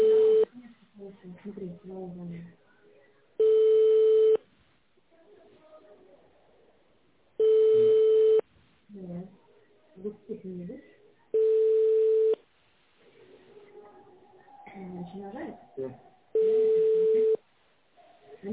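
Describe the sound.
Telephone busy signal on a call to an emergency number that is not going through: four steady, evenly spaced beeping tone bursts, each close to a second long, with people talking in the gaps between them.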